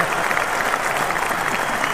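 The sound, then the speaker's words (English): Audience applause, a steady, dense wash of clapping that holds an even loudness from start to finish. “All right, that deserves a round of applause.”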